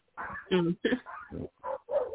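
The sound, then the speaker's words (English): Dogs barking and yipping outside during a dog fight: a rapid run of short, sharp barks and whimpering yips in uneven bursts, fairly loud, with brief gaps between them. “See, it looks like we're having a big old dog fight outside.”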